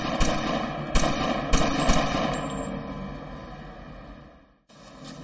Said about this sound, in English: Seconds later, the gunfight.